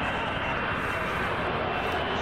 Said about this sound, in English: Made its first landing at Yeovilton, touch and go on Thursday, and here she comes. It's my first sight of the F-35, and gosh, it's just a beauty.